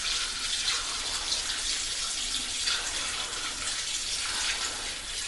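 Liquid pours in a steady stream, a continuous rushing, splashing hiss that holds at a fairly even level for several seconds, with no talk.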